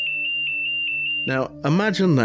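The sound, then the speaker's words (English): ESOC control room alarm for lander contact: a steady, high electronic tone with regular rapid pulses runs alone for about a second, then a voice starts speaking. “And that is exactly what the alarm sounds like, which had been set up to ensure that any lander contact would not have been missed.”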